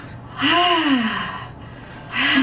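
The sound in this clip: A voice imitates heavy breathing like an MRI machine. It makes a long, loud, voiced breath whose pitch rises and then falls, and a second breath begins at the end.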